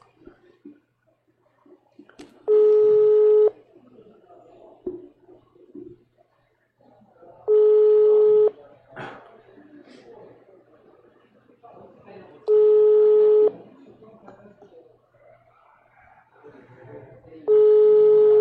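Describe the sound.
Ringback tone of an outgoing WhatsApp call: four steady, buzzing tone bursts, each about a second long, repeat at even intervals of roughly five seconds, with people talking in between.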